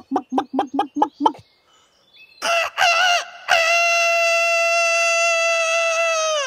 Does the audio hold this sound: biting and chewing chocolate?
no